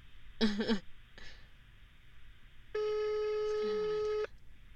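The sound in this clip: A phone call on speakerphone rings out while waiting for an answer: one steady, buzzing ringback tone lasts about a second and a half. Brief throaty vocal noises come before it.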